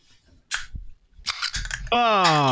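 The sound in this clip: A beer can or bottle cracked open: a sharp click, then a stretch of fizzy hissing, with a voice following right after.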